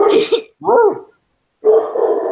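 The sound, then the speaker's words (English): A dog barks in another room in a few short, loud bursts separated by brief pauses, its harmonic yelps sounding harsh and slightly strained. “The louder barking behind me that you can hear.”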